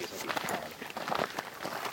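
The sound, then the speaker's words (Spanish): Footsteps on an outdoor path behind a house at the edge of a forest, a quick, uneven shuffle of steps under people talking. “os dejamos con unos sonidos de pasos y a lo mejor unos comentarios random de qué se va a hacer de cenar y eso.”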